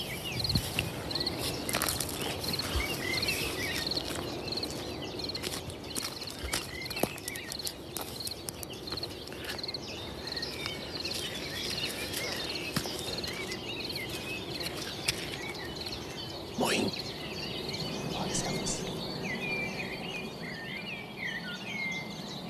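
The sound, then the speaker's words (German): Dawn chorus of birds outdoors at half past four in the morning: many overlapping chirps and trills over a steady hiss, with scattered soft patters and rustles and no talk. “ist hier eine App, eine Dawn Chorus App. Da geht es um das Morgenkonzert. Und das nehme ich mir hier auf. Und das ist immer eine Minute.”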